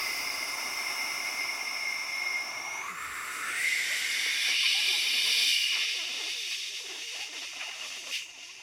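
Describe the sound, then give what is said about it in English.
A forceful breath out that empties the lungs completely, heard as a loud, continuous breathy hiss pushed hard for about eight seconds without a break. “That's me pushing as hard as I can, exhaling every bit of air out.”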